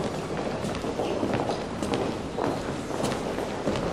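Footsteps along an upper-floor gallery walkway, a steady run of soft steps over constant background hiss.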